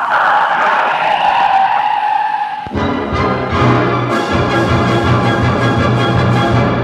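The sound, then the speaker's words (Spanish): Car tires screech as a taxi pulls up in a hurry: a loud, harsh, sustained squeal for under three seconds, then an abrupt cut to a steadier, tonal sound. “Al oír el chirrido de las llantas del otro carro”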